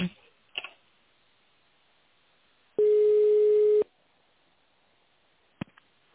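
A single steady telephone line tone lasting about a second sounds loudly while a call is being transferred, with faint clicks before and after on an otherwise quiet line.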